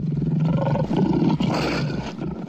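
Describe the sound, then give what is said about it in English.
A lion roars on the South African savannah, a deep, rough, throaty roar that pulses and swells continuously on its own for the whole stretch. “why a lion's roar isn't the most feared sound on the South African savannah.”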